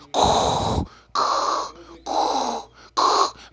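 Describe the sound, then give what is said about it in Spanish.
A voice imitates a sci-fi villain's mechanical respirator breathing: four harsh, hissing breath sounds alternating inhale and exhale, each about half a second long, separated by short gaps and evenly paced. “estoy mencionando cómo coño hace Darth Vader, cómo respira, no sé, pues inhala, exhala”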